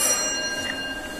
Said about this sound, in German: jetzt klingeln wir mal hier